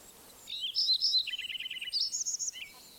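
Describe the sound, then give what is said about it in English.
Lincoln's sparrow song: a bubbly, high-pitched warble that breaks into a rapid run of evenly spaced trilled notes, then ends with a brighter burst. It is fairly loud and clear, with no voices. “Another Lincoln Sparrow singing behind me.”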